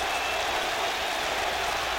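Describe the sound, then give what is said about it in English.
A baseball crowd at a doubleheader, on its feet and calling for Willie McCovey, fills the air with a dense, steady roar of massed voices and clapping that holds at an even, loud level throughout. “And they've started to chant again of "We want Willie." But there's no sign of Willie so far. The chant still of "We want Willie. We want Willie."”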